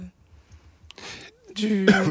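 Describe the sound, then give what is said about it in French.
Coughing, heard as two short, rough, noisy bursts. The second is louder and partly voiced. “On tousse beaucoup, hein.”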